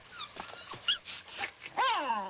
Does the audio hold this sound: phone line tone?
no

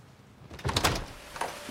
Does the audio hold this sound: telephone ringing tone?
no

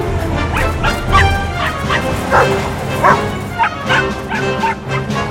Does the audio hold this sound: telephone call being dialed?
no

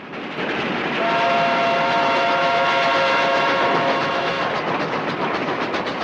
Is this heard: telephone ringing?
no

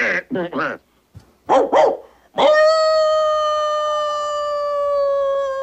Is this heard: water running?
no

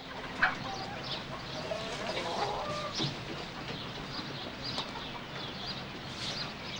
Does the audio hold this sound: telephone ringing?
no

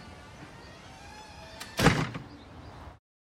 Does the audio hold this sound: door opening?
yes

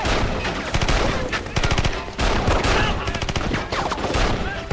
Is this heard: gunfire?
yes

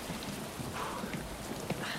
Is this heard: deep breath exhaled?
no

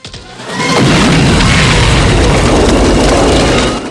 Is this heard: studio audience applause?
no

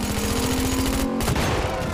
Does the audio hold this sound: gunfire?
yes

